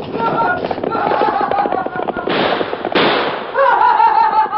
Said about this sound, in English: Gee, shot at us.